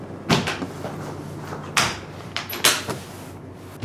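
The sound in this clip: A large, wheeled chest holding records and a record player is opened, giving a few sharp wooden clunks and knocks spread out over a few seconds, with quieter shuffling between them.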